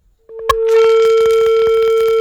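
A phone call drops with a click, then a steady, loud, continuous electronic tone with a faint higher overtone. Faint repeated ticks run under it to the end.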